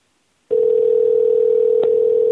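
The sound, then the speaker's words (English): Recorded telephone tone: after half a second of silence, a single steady, mid-pitched tone starts abruptly and holds unbroken and loud to the end. “We got some sporadic ringing here. A recording of ringing? Yeah, these are fake.”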